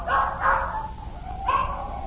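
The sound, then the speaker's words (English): Dogs in the back seat of a car give a few short yelping barks, loud at first and again near the end, over a steady low rumble. “Where'd all them dogs getting in my car? What's all them dogs doing in my car?”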